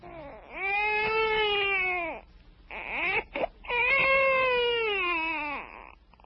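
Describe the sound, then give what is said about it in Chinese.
A baby cries loudly in two long, wavering wails with a brief gasping break between them, shrill and strained throughout. “他哭声这么大，恐怕不能够久藏这孩子了。”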